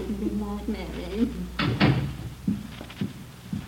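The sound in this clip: A door opening and closing as a guest leaves, heard as a few dull wooden thumps and latch clicks, with people talking through and around them.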